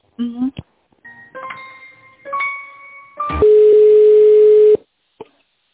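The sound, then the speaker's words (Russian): Telephone call-transfer tones: a few short electronic beeps that step between pitches, then one long, steady, loud tone that cuts off into silence. “Сейчас, минуточку, я вас на Владимира переведу.”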